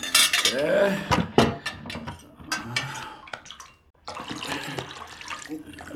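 A water container is handled in a dungeon cell, giving a few clinks and clattering knocks of a vessel with faint sloshing. There is a short pause just before the fourth second, then more clattering.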